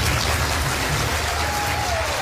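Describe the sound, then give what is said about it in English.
Whoops and cheers from an audience of Republicans at a televised town hall meeting in New Hampshire, a dense, continuous roar of clapping and shouting that holds at a steady loud level throughout. “Whoops and cheers from an audience of Republicans at a televised town hall meeting in the battleground election state of New Hampshire, hosted by CNN.”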